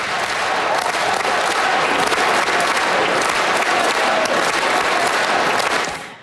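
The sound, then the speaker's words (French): Federal members of parliament in Ottawa give a sustained round of applause to Olympic and Paralympic athletes back from the Milan-Cortina Games: dense, steady clapping with a faint crowd murmur that holds at one loud level, then fades out at the end. “Ce qu'on entend, ce sont les députés fédéraux qui ont réservé un accueil triomphal aux athlètes olympiques et paralympiques qui ont pris part aux Jeux de Milan-Cortina.”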